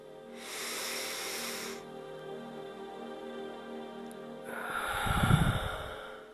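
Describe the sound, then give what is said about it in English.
A person breathes deeply and slowly, alone. A long, airy inhale is followed by a pause, then a fuller, louder exhale with a low, rough rush of air. “step one, breathe. And again.”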